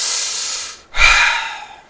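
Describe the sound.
A person imitates a pet's big sigh before sleeping: a breathy, hissing intake, a brief pause, then a louder, lower exhale that slowly trails away.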